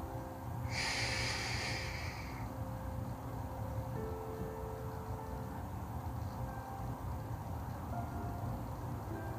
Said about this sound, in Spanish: sostén. Inhala.